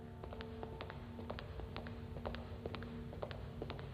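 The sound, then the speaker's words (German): A man's long footsteps outside: many crisp, evenly paced taps over a low rumbling background. “Draußen ein langer Männerschritt. Ein soldatisches Klopfen.”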